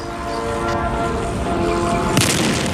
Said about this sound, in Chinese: 我进行试射，